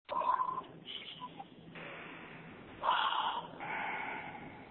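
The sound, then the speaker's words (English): Slow, deep breathing during a guided breathing exercise, with a few long, airy rushes of breath. The breaths are soft and faint, and nobody speaks. “let's take a deep breath”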